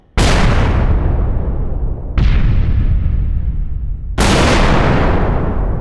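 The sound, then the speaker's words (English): Cinematic hit and explosion sound effects: three loud, booming impacts arrive at even intervals, and each one rolls off into a long, rumbling decay before the next strikes. “cinematic hits, explosions,”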